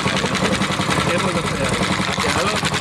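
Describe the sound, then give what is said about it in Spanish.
A kart engine running at idle beside the vehicle gives a continuous, loud, steady rumble with no breaks, and voices talk over it throughout. “vamos a ver qué tal se oye esto, porque estoy al lado del coche”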